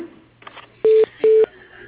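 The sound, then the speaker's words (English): Telephone tones as a call is transferred to voicemail: two loud, steady electronic beeps of equal length with a short gap between them, and no talk. “I'll transfer you to his voicemail.”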